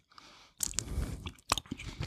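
Chewing of a red fruit gummy, soft squishy mouth sounds with a few brief crunchy clicks, close and fairly quiet, with no talking.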